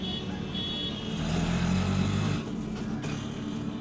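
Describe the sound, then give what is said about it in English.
A motorized rickshaw, or baby taxi, rides through the streets of the Bangladeshi capital: a steady engine drone with road rumble and a dense traffic hiss, fairly faint throughout, with no talk. “He's riding in a baby taxi. It's one of those motorized rickshaws you see everywhere in the Bangladeshi capital.”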